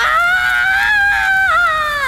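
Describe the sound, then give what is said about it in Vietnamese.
A piercing scream from an old woman leaping into a pan of boiling fat: one loud, sustained, high-pitched shriek lasting about two seconds, holding a steady pitch with a brief wobble near the end, heard alone. “Tiếng hét thất thanh xé toạc màn đêm, nhưng nó tắt ngấm gần như ngay lập tức.”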